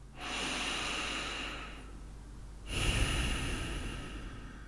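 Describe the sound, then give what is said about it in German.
Deep breath during a guided relaxation: one long, airy inhale, then after a brief pause a longer, slightly louder exhale, soft and alone. “Schließ deine Augen und machst zuerst einmal einen tiefen Atemzug.”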